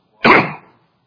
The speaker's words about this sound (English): I'm trying to clear my throat, and it's slow to do so.